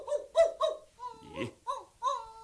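Dog yelps from a legendary royal dragon dog in a Cantonese folk-tale drama: several short, high, whining barks in an uneven series, with no talk over them.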